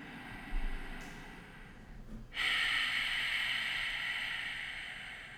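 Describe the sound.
Breathing during a yoga breathing exercise: a quieter breathy stretch gives way to a long, steady hissing exhale that starts strong and slowly tapers off.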